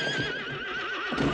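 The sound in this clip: A horse whinnies in a Sergio Leone western film scene where riders approach. The single drawn-out, wavering neigh is loud and fills the moment, with faint hoof clip-clops beneath it.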